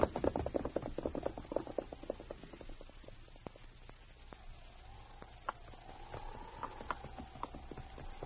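Horse hooves clip-clopping as a horse is ridden along a branch trail: a quick, steady run of many hoof strikes, louder at first and then softer, with no talk over it.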